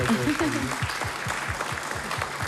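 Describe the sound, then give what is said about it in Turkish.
Audience applause for saz players in a folk music setting: a dense, steady wash of clapping with a regular, rhythmic pulse running through the whole two and a half seconds. “Bir daha bir alkış almayalım mı saz”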